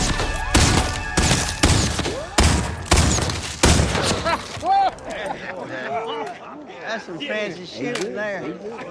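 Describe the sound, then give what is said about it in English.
Gunfire from The Magnificent Seven rings out as a rapid string of sharp, loud shots, followed by people talking. “Some fancy shooting there.”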